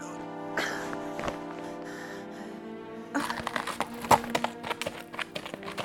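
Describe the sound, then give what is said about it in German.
Horse hooves clip-clopping in a radio drama of an opera, sparse hoof strikes at first, then busier, irregular clopping after about three seconds, heard over sustained tones at moderate loudness. “Komm auf mein Pferd. Ich rette dich.”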